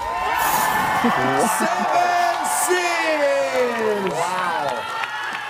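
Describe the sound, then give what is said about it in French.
Crowd cheering, whooping and applauding an air guitar performance by a woman in layered dresses who dances wildly, a continuous loud roar with high shouted whoops and clapping throughout. “Et là, elle se déhanche telle une furie. Voilà, c'est absolument édifiant. Le public exulte, elle obtient une super note.”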